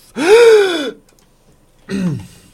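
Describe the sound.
A strained, voiced gasp as the breath runs out at the end of a long sustained exhale during overtone-singing practice: a longer groaning sound with falling pitch, a short silence, then a second shorter gasp.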